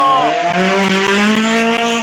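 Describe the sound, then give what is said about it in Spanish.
A race car engine at an auto racing event revs hard, its loud, steady whine climbing in pitch over about two seconds with no other sound around it. “Carrera de automovilismo llega de Valle.”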